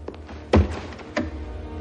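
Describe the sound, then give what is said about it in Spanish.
A room door is closed carefully, giving two soft, dull thuds separated by a short gap over a quiet background. “Cierra la puerta con mucho cuidado y regresa junto a sus compañeros.”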